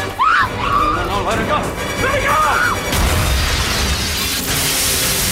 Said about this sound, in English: In flash forward, the hostage explodes and Stanley is sent flying back through the air.